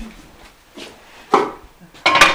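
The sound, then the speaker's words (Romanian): Cabbage rolls and smoked meat going into a pot, heard as a few soft clunks and scrapes of food and utensils against the cookware, ending in a louder clatter. “Așa, și le așez și pun la mijlocul la cratiță. Pot să vă și arăt, pun afumătura, pun afumătura, așa.”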